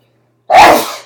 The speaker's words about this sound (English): That was a sneeze. It's a Canadian sneeze.